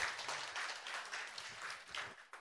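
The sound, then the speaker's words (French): Short, faint burst of audience applause for a recently married woman, a busy patter of claps that holds for a little over two seconds and stops abruptly. “Tiffany s'est mariée il n'y a pas longtemps, on peut l'applaudir quand même.”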